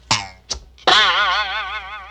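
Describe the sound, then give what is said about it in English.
A hunter's bow twangs as an arrow is shot: two short plucks, then a long, wavering, springy ring that slowly fades. “The hunter raised his bow and arrow and shot”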